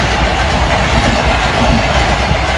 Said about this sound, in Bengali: ট্রেনটা কোথায়? আওয়াজ আসছে, দেখতে পাচ্ছি না কেন।